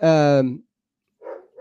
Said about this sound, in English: Hold on. Sorry. We just got a new dog. Anyway, is the dog picking something up?